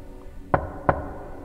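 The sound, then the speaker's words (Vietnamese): Two sharp knocks sound on a door, spaced about a third of a second apart, crisp and clear against an otherwise quiet background. “Ấy nhưng mà tiếng gõ vẫn cứ vang lên đều đều như vậy.”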